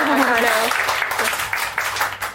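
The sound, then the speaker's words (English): Applause from an audience at a book discussion panel, a spread of clapping that begins under a speaking voice and continues on its own, tapering slightly toward the end. “So I guess this is the time to make a round of applause and introduce everyone else.”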